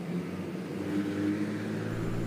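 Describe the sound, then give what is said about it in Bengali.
Steady engine and road rumble from a bus travelling fast, a low droning hum that holds even throughout without distinct events. “বাসটা জোরে ছুটছে”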